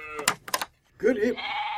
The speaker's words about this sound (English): The sweetest little goat in the whole wide world.